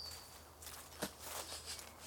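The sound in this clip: Soft footsteps of people walking over to a crying girl sitting beside a vegetable bed, a few faint, muffled steps in a quiet, irregular rhythm.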